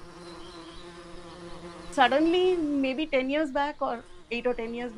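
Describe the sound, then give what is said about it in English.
Bees buzz inside a wall light switch, a steady low hum with a thin upper whine. It is heard alone for about two seconds before a person starts talking over it. “The buzz in this light switch isn't from the electrical charge. It's the sound of an entire ecosystem, a beehive.”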